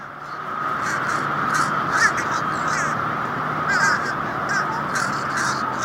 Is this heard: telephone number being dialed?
no